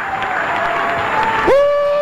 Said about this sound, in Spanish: Dale un aplauso al Dios del cielo.